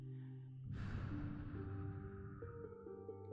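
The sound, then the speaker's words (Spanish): A breathy exhale is blown into cupped hands as one soft, airy rush that starts suddenly and slowly fades, over quiet, sustained, tonal music. “Toma tus manos y soplales.”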